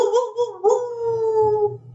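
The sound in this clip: A howling monster sound effect: one drawn-out, wavering wail with a low rumble beneath it. It dips briefly near the start, then holds a steady pitch for about two seconds before fading out.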